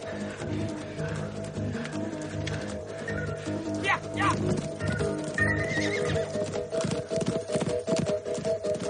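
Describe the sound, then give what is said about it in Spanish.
A horse neighs while its hooves clip-clop steadily as a rider gallops across a desert; a single shrill whinny rises midway over constant hoofbeats, with a voice talking over it. “De pronto, un hombre a caballo corre hacia ellos”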